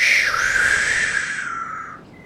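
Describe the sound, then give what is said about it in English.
An owl hoots at night: one long, loud, tonal call that dips slightly in pitch and gradually fades toward its close, with no voices present. “But the owls call, hoo, hoo. And the night winds blow.”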